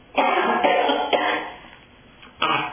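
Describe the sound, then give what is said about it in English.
A person with a dry throat coughs four times, in short, harsh bursts, the last after a brief pause. “Pardon me while I cough here, but”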